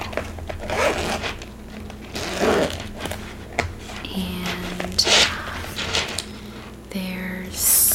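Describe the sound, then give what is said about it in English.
A zipper on the inside pocket of a leather bag is pulled in several short, rasping strokes with pauses between them. Soft handling rustles fill the gaps. “it's got an inside zipper pocket.”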